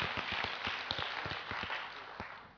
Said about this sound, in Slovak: Dajme potlesk Pánovi.